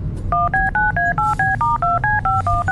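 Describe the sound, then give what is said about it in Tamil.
Telephone dialing tones from a phone keypad: a quick, even string of many short two-tone beeps as a number is keyed in, heard alone without talk. “Ma'am அங்க உள்ள teachers கிட்ட கால் பண்ணி கேளுங்க ma'am.”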